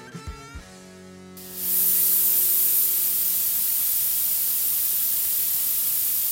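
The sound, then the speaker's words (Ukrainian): Compressed air, nitrogen and carbon dioxide gas feed hissing in a brewery: after a short stretch of low humming tones and a few soft knocks, a loud, steady, broad hiss starts and continues unchanged to the end. “Це звук подачі стисненого повітря, азоту, вуглекислого газу.”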